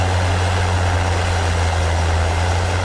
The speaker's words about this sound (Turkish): İş makineleri bölgede gece gündüz çalıştı.